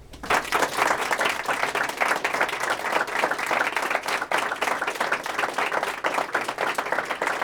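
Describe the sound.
A seminar audience at a public health school applauds to welcome a guest speaker. Thick, even clapping holds at a steady level for the whole stretch without pause.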